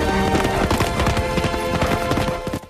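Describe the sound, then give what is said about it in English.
Galloping horse carrying a rider across open grassland dotted with trees: loud, rapid clip-clop hoofbeats run steadily throughout over a constant tonal layer, fading slightly at the very end. “rides the galloping horse through open grassland which is dotted with trees”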